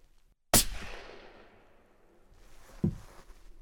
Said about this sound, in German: Jetzt bin ich mit dem Leuchtpunkt auf dem schwarzen Wärmebildschusspflaster und lass gleich mal fliegen.